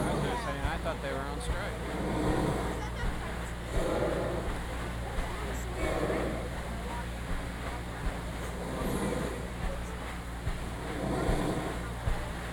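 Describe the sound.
A paddle wheel boat pushing through water gives a steady, broad rumbling wash with low mechanical churning throughout, and faint voices blend into the noise.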